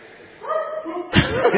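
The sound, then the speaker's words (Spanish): A dog barks, giving short voiced yelps and bow-wow calls, then a harsher, louder bark near the end. “Reconocería su ladrido en cualquier parte.”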